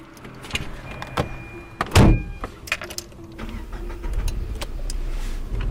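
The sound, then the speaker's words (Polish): A car makes assorted clicks and door-like knocks, then a louder whooshing burst midway, followed by a steady low engine rumble through the final seconds. “Jedziemy do jednego z naszych podopiecznych, Konrada.”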